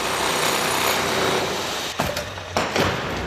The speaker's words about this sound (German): MDR Thüringen-Reporterin Katrin Welzel hat sich fürs Fazit vom Tag mal auf der Baustelle umgeschaut. Das Lindenau-Museum klingt leise in der zweiten Etage und laut im ersten Obergeschoss.